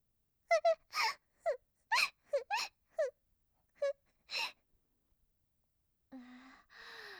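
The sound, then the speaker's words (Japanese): A woman crying in an intimate scene: many short, breathy wailing and moaning bursts in quick succession, followed after a pause by two longer, lower-pitched sobbing cries. “悪い子だよね。泣いちゃってかわいそうに。”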